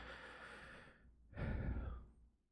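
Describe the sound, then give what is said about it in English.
A big, deep breath taken slowly: a faint breathy hiss, a short pause, then a fuller and louder airy breath that fades out, quiet, with no talk. “take a nice big deep breath”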